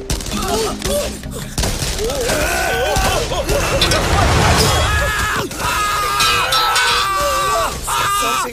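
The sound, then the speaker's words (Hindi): Gunfire crackles in rapid, dense bursts that run almost the whole time, mixed with screaming and yelling from a crowd. “Firing क्यों हो रही है?”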